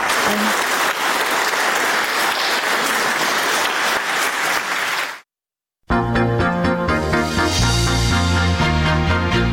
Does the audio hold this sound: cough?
no